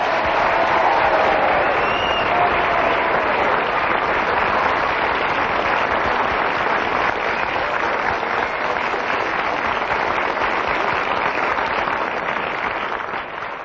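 Applause from a studio audience for the week's winner of a show: a dense, steady wash of clapping that holds at full strength for about fourteen seconds, easing only slightly at the very end.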